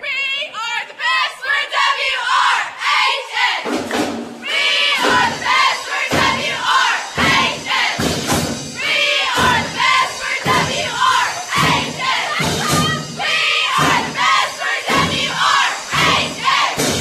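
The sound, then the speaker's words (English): A high school group at Walter Rich High School shouts a morning pep chant, loud rhythmic bursts of massed voices that repeat many times in a steady pulse. “Let's go ahead and have them do a chant real quick.”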